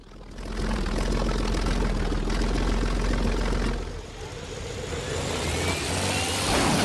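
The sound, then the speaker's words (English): A small plane lands on a dusty jungle airstrip and keeps speeding along it without slowing, its engine a loud, steady droning roar that dips briefly partway through and then builds again. “He lands. The plane plows up dust as it travels, but doesn't slow.”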